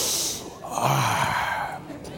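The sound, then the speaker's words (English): A deep sniff, a strong inhale through the nose to take a good whiff, heard as a breathy rushing sound that swells and fades across about two seconds. “See, I can hold my breath. Okay? Or I can take a good whiff.”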